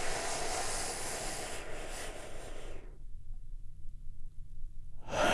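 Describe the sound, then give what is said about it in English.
A deep breath drawn in and let out during a guided relaxation, heard as a long, airy, steady rush for about three seconds, then a quiet pause before another breath begins at the end. “let's all take a big, deep, healing breath right now.”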